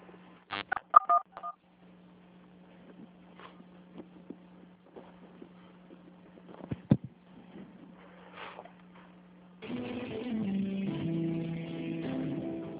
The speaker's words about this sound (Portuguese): Digite o ramal desejado ou aguarde.